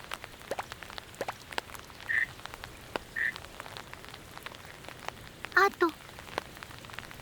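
Steady rain pattering with scattered sharp drips as frogs croak a few times, two short calls followed later by a louder double croak, all fairly faint.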